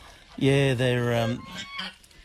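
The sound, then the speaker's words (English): A goose gives one drawn-out nasal honk, loud and steady in pitch, followed by a couple of fainter, shorter calls. “Love looking at them, love coming down and just, just see them do what geese do”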